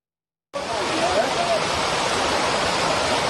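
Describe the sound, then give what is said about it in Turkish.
Heavy rain pours down in a downpour, with floodwater rushing through the streets. A dense, steady hiss of water begins abruptly and then holds at an even, loud level without a break. “Akşam saatlerinde etkili olan şiddetli yağış birçok şehirde yaşamı felç etti. Çok sayıda ev ve iş yeri su bastı. Cadde ve sokaklarsa göle döndü.”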